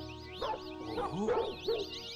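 Dog barking and yipping in a few sharp yelps spaced irregularly, with a high, wavering whine running above them.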